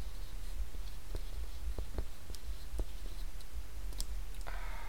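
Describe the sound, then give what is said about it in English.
A pen or pencil writing at length, with faint scratchy strokes and light ticks scattered over a steady low hum. “You're writing a lot over there, though.”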